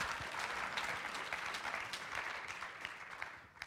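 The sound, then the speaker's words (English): Audience applause for people who have just answered questions in front of a crowd: many hands clap in a dense, sustained wash that stays even throughout and eases slightly near the end. “Give these guys a round of applause.”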